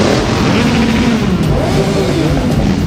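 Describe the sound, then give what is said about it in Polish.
Motorcycles ride past in an independence motor parade through the streets of Wrocław, making a continuous loud engine drone with revving that swells and eases throughout, with no break in the sound. “Ulicami Wrocławia przejechała motoparada niepodległości. Barwna kawalkada motocyklistów zrobiła na mieszkańcach wrażenie.”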